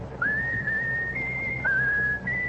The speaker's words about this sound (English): Whistle your favorite tune.